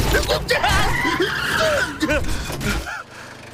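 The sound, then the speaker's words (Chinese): A car speeds and skids through a forest, with tire squeals and engine swoops mixed under loud, overlapping shouting voices across the whole stretch. “刚才真是太危险了， 竟然在森林里飙车！”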